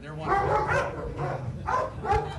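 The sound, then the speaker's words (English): Sheriff's department police dogs bark in two clusters of loud, harmonic barks and yips, with voices mixing in. “As you can see, the dogs here are ready to go to work,”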